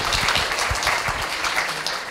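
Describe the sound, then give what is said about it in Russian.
Audience applause for a speaker at a conference session: a dense, steady patter of many hands clapping at an even, fairly loud level throughout, with no voices over it. “Дмитрий Александрович, аплодисменты”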